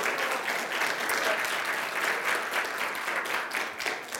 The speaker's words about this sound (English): So go ahead and clap on that.